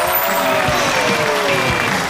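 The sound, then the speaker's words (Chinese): Audience applause welcoming a guest actor onto a stage show: a loud, dense, unbroken wash of clapping that holds steady for the whole two seconds. “有请我们今天嘉宾著名演员董春辉，掌声有请”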